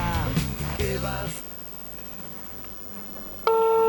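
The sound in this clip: Phone ringback tone as a call is placed, with brief talk and then quiet before it. A single steady, bright tone starts abruptly near the end and holds loudly.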